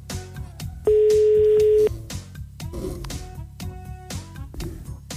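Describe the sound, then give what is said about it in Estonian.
An outgoing telephone call rings out with one long, steady ringback tone lasting about a second, rising clearly above a busy background. “meil on aeg helistada ja helistamegi”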